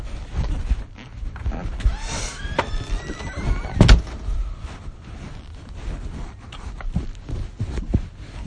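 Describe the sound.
A car door shuts with one sharp, heavy thud, surrounded by quieter rustling and handling noises with a few faint squeaks before it.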